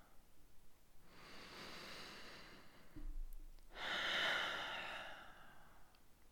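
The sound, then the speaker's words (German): A deep, conscious breath taken during a guided meditation: two soft, airy breath sounds, the second louder and fuller. It is faint overall, with no talking. “Nimm mal einen bewussten Atemzug.”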